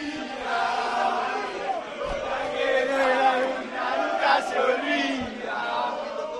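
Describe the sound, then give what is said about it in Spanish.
The Argentina national football team sings and dances as it passes through the mixed zone after a match: a dense, steady crowd of male voices chanting and shouting together, loud and continuous throughout. “sale todo el equipo de Argentina bailando en comandita, pero no se para nadie a hablar, pero nadie, ese es el sonido”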